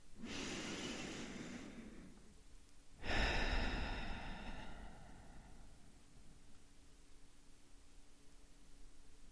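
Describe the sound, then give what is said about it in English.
Deep breathing with a long, airy breath drawn in, a pause, then a second louder rush of breath that fades into a soft hiss. There are no voices. “Let's take a deep breath in and continue.”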